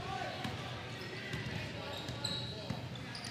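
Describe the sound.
Basketball dribbled on a court during a game, the ball's bounces coming as a few faint thumps under steady crowd noise and a commentator's voice.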